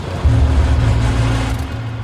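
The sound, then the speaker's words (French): A car moving along an isolated path gives off a low, steady engine rumble that holds fairly loud and even for about two seconds, with no voices over it. “la voiture prend un sentier isolé, puis s'arrête.”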